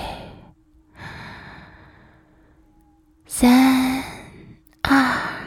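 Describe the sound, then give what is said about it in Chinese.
During a guided breathing exercise, a person takes a slow, deep inhale heard as a long, soft rush of air lasting a few seconds. Louder, breathy sigh-like breaths follow. “吸气”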